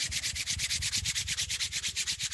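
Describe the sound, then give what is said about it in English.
Hands rubbing briskly together: many quick back-and-forth friction strokes in a steady, even rhythm, each a bright hissing swish, with no talk. “Let's take one more breath together and blow it out. Rub your hands together.”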